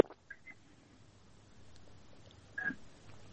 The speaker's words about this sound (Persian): بله تماس شنونده ما خیلی مشکل داشت و تماسشان هم قطع شد.